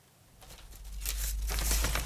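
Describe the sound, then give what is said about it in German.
Brittle, centuries-old sheet music paper being handled in a paper restorer's workshop in Berlin gives soft crackles and rustles. The faint crackles grow a little louder and denser over a low steady hum. “Es knistert leise, altes Notenpapier, mehrere hundert Jahre alt.”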